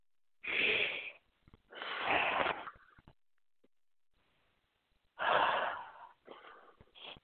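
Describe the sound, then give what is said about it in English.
Deep breathing: four long, airy breath sounds in two closely spaced pairs, split by a quiet gap of a couple of seconds, each breath swelling and fading smoothly. “So let's go ahead and take a couple of deep breaths.”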